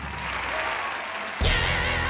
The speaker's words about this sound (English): let's do a virtual round of applause